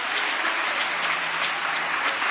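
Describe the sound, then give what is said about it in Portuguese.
Applause from a church audience: dense, steady clapping that holds at an even level for the whole clip, with no voices standing out. “Aplausos para o Senhor. Aleluias.”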